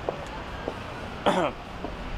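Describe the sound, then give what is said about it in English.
A man clears his throat once, a short gravelly rasp that rises clearly above faint background noise and a few soft vocal sounds. “I love how he clears his throat right about as he's about to answer that question about would he be open to coming back to play with LeBron.”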